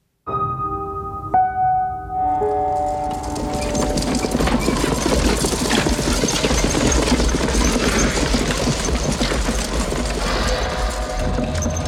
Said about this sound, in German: Da kommt der Wagen.